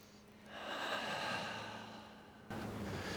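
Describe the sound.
A group of people taking a big breath in together on cue, a soft airy rush that swells and then slowly fades, faint and with no talking.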